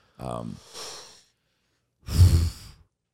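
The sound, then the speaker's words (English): A queef noise sound effect with a breathy, exhale-like quality, played as two airy puffs separated by a pause. The first starts with a low buzzy rasp and trails off. The second is louder and fuller. “They play the queef noise for Captain Queef. So here's a couple different options for you.”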